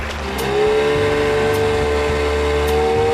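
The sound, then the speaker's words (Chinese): A boat engine starts and speeds up, its level rising over the first half second into a steady, loud droning hum with a low throbbing rumble underneath. “你们都坐好了，我要开船了。”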